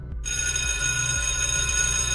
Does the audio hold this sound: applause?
no